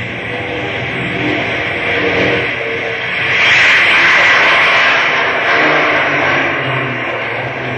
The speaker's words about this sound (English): Tell the skipper to put his seeing glasses on because I've got runway clearance. Okay, boy. Give her the gas.